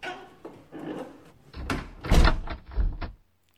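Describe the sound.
A door being shut and locked in an office after a meeting: a short run of knocks and clicks, the loudest thud near the middle, followed by quiet. No voices.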